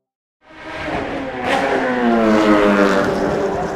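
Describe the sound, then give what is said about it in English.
Formula One racing car engines revving: a loud, high-pitched mechanical roar that starts abruptly after a brief silence and holds steady, rich with buzzing harmonics, with no voices. “It's easily the world's noisiest sport. Since 1950, Formula One racing has delighted fans around the world with its fast rides and fierce rivalries.”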